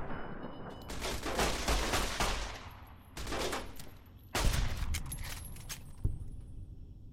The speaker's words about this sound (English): Oh, submachine gun. No wonder he was hurting me so bad.